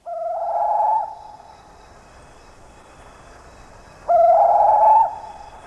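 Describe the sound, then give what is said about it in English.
Call of a forest bird from Indonesia: two drawn-out, steady hooting whistles, each about a second long, separated by a pause of roughly three seconds. “That's the sound of one of the many bird species found in the forests of Indonesia.”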